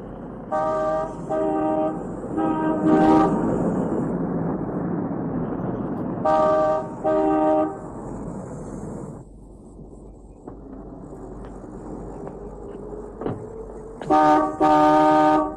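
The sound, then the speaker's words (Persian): A car horn honking repeatedly: a cluster of short, bright blasts in quick succession, a pair more after a pause, then another cluster at the end, all over a continuous rumbling background noise. “ممکنه اینقدر اون بوق لعنتی رو به صدا در نیاری؟”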